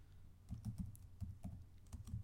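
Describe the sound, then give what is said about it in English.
Typing on a computer keyboard: a quick, irregular run of faint clicking keystrokes heard alone. “Here we go. Fill the dead air with the typing of the keyboard.”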